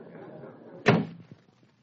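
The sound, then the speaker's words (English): A door is pushed shut with one solid thump and a short rattle, following a stretch of low murmuring voices. “Let's close the door.”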